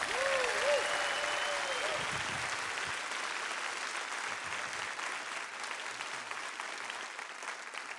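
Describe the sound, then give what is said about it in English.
Steady applause from a church audience welcoming a guest pastor in South Texas, a dense, even wash of clapping that holds at a constant level for the whole eight seconds. “Please give a warm South Texas welcome to Pastor Buddy Kremenes.”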